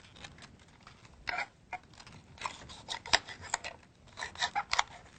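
Three big red cabbage leaves are cut into thin strips, giving faint, crisp, rasping strokes that come in many irregular bursts, some clustered close together, with no talking.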